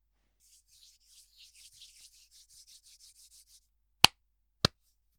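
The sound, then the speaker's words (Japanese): Hands rub together in many soft, rhythmic rasping strokes, then two sharp percussive hits ring out in the quiet that follows. “まずは手の音を聞かせてあげるね。”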